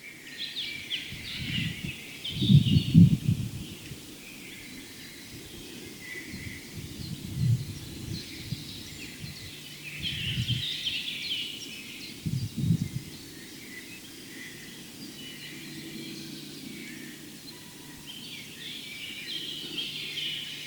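Faint birdsong from inside a bush, calls of a garden treecreeper and a lesser whitethroat, heard as scattered brief high chirps over low background noise.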